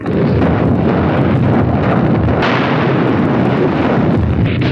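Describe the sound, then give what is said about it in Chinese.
Artillery firing at a numbered target: a loud, continuous barrage roar of overlapping blasts and deep rumble, with no clear gaps between shots. “王城呼叫，王城呼叫，向四号目标开炮。 四号目标射击。”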